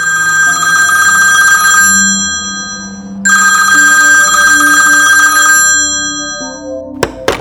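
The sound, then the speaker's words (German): A telephone ringing in two long, bright electronic ring bursts separated by a short pause, loud and alone, followed by a couple of sharp clicks at the end. “Wir können doch Inspektor Unbekannt anrufen.”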